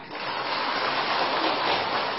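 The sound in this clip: Fine early-morning drizzle falls as a soft, even hiss, a steady wash of rain with no distinct drops, constant in level from start to end and free of voices.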